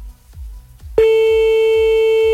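A telephone busy tone answers an attempt to call a number back. A loud, steady electronic tone cuts in abruptly partway through, after a few soft low thumps.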